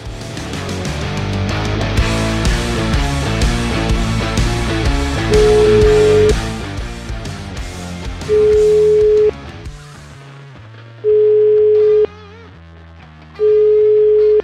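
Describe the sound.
A telephone line tone plays while a call is placed again. It comes as four steady, even pure-tone beeps, each about a second long, with regular pauses between them. Loud music comes before the beeps and stays faintly beneath them.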